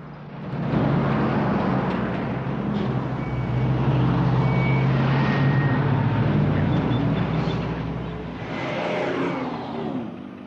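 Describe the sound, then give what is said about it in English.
A car transporter truck drives along a highway beside a truck stop, its low engine drone and tire roar loud and continuous, swelling in two broad waves before easing at the close. “A juggernaut rolls along the highway. In the next lane, a car transporter chunters past the Joplin Jackrabbit truck stop.”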